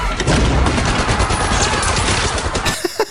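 Machine-gun fusillade from the theater fire scene of Inglourious Basterds: a loud, dense rattle of rapid shots that runs almost throughout before breaking off near the end.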